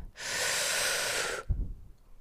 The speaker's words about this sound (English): let's leave this episode with a nice deep breath in